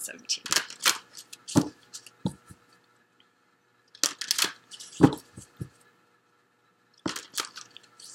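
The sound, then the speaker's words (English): Tarot cards are shuffled and drawn in three bursts of crisp riffling, flicking and slapping, with quiet pauses between the bursts. “So let me go ahead and get the cards drawn for you.”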